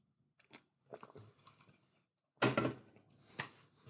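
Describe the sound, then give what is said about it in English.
Sips from a can of grapefruit Spindrift sparkling water, preceded by a few soft handling clicks and rustles, then a louder, noisy fizzing burst and a second sharp sound near the end, with no talking. “That is the sound of my grapefruit Spindrift opening up. And I'm going to take a sip of this”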